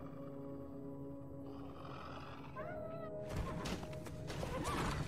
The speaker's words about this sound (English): Clydesdale to the rescue.